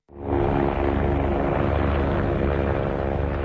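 Refurbished American military helicopters that served in the Vietnam War: a loud, steady, rumbling engine roar that swells in at the start and then holds.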